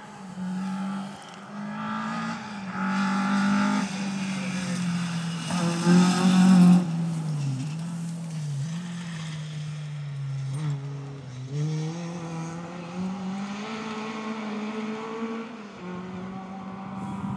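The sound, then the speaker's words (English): A classic Escort rally car races around a rally stage in Wales in the distance, its engine revving steadily with constantly shifting pitch as it works through gears and corners, fairly loud and continuous throughout, with no voices. “I can just hear, I think it's an Escort, racing around in the distance now. So I'll leave you with the sound of this.”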